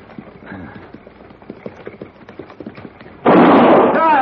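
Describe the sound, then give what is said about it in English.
A gunshot fired into the air beside a buckboard on a trail bordering a dry lake in the Old West, coming as one sudden loud blast after a stretch of soft rhythmic clopping, its noisy roar lingering to the end. “Hold it! Well, I mean, what is this? If I fire again, Morgan, it won't be in the air.”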